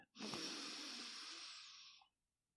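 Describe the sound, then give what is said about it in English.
A single long deep breath, faint and airy, holds steady for about two seconds before fading out into silence. “let's take a deep breath.”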